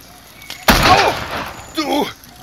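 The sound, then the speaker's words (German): A single gunshot goes off in a German-language radio drama, a sudden loud blast. Pained shouting from a man follows it, then breaks off and returns a moment later. “Du hast mir auf den Fuß geschossen, verdammte Scheiße!”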